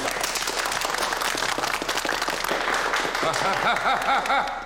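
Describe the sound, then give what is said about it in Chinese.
Applause from a group cheering on a colleague in a comedic scene, a busy, steady clapping patter throughout, with a wavering voice-like tone rising over it near the end. “来来来，我们一起给峰哥鼓励一下，来，掌声。”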